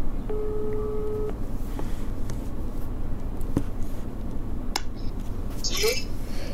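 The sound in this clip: Mobile phone call tones on speakerphone: a short steady two-pitch electronic tone near the start, then a low hum with faint scattered clicks and beeps.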